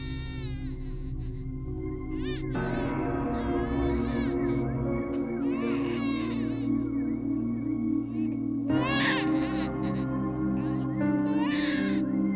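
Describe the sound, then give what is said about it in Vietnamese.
Children crying in high, wailing, overlapping cries that rise and fall in pitch, loud and sustained throughout over a low droning background. “Trong đầu của cô Mận vang lên là tiếng cười, tiếng trẻ con khóc choe choé, đến rợn cả người.”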